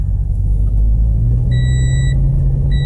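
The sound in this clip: A car engine rumbles low and steady as the vehicle sets off and picks up speed. An electronic beeping tone sounds twice over the constant drone.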